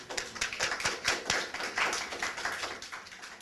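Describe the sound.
An audience applauds to welcome a speaker at a presentation for entrepreneurs and small business owners: dense, steady clapping with sharp individual claps, sustained throughout.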